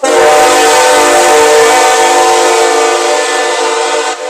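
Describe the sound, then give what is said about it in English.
A train horn blares as a train arrives, one loud sustained chord-like tone held almost unbroken for the whole stretch, easing slightly at the end. “The train is here”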